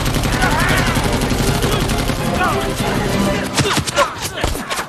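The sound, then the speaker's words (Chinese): Machine-gun fire directed at enemies hiding in a mountain cave: a dense, sustained barrage of loud cracking bursts that grows sharper and more broken toward the end, with voices heard over it. “给我上机枪！”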